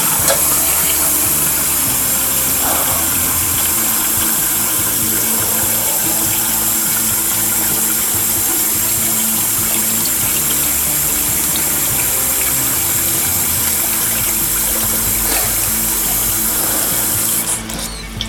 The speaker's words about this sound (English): Right, let's get this washed and see if it's worked.